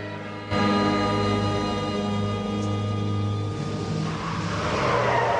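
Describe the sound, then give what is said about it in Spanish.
A pizzeria car drives along a slippery street, giving a steady droning engine hum with a soft tire hiss at an even level throughout. “El auto de la pizzería circula por la calle resbaladiza.”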